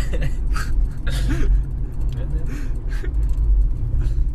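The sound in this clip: A car driving, with a steady low rumble of engine and road noise throughout and voices talking over it.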